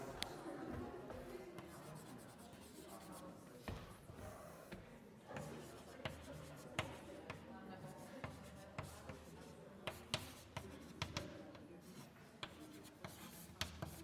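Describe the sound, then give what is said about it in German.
Chalk or marker writing on a board: a dense run of scratchy strokes and sharp taps, some louder than others, continuing unevenly throughout. “Ich schreibe das nochmal dazu.”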